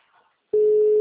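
A telephone call tone comes in abruptly after a near-silent moment and holds as one loud, steady electronic note at a fixed pitch.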